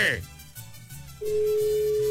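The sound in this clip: Ringback tone of an unanswered telephone call: a steady single-pitched electronic tone starts partway through and holds to the end, with talk underneath.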